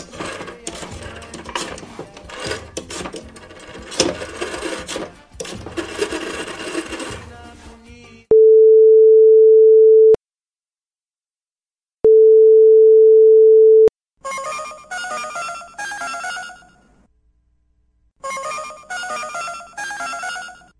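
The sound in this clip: A telephone call rings out on the line with two long, steady, low-pitched tones separated by a gap of silence. People talk before the tones and again after them.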